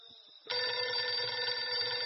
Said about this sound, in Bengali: সন্ধে সাতটা নাগাদ বেজে উঠল সার্কিট হাউসের ল্যান্ড লাইন, চরণ শেঠের ফোন